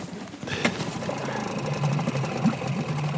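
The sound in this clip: A vehicle engine that has been hard to start runs with a quick, even mechanical chatter over a low rumble. A single sharp knock sounds near the start.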